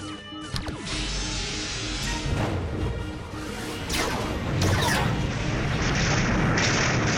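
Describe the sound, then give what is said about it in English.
A science-fiction phaser weapon fires from a starship with sweeping energy whooshes and several booming, crashing bursts. The layered blasts grow louder and denser toward the end. “Target the attacking vessels and fire at will. Firing phaser one.”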